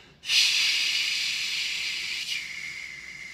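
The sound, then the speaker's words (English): During a breathing exercise a person exhales loudly through the mouth. The breath is a long, steady, breathy hiss that starts abruptly and eases off slightly over about three seconds. “exhale loudly through the mouth for the count of six.”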